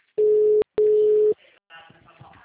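A telephone ringing tone during a call: two steady, mid-pitched tone bursts separated by a short gap, followed by faint line noise.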